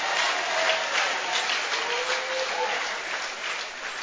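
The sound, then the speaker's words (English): Many hands clap together in a church, making a dense, steady patter of applause that keeps a constant level without breaks. “Are you clapping your hands for the Lord?”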